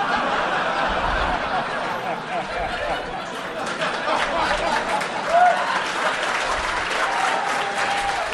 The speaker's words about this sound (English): I'm glad you guys are applauding to that.